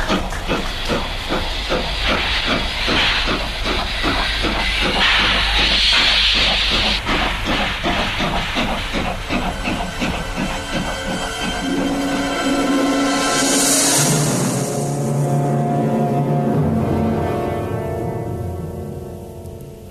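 Train wagons departing amid hissing steam: a loud, continuous steam hiss runs throughout, with rhythmic chugging pulses underneath that fade in the later part as the hiss lingers.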